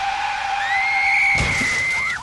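A car skids with a long, loud, high tire screech that holds steady, and a broad crunching crash bursts in partway through while the squeal carries on before cutting off.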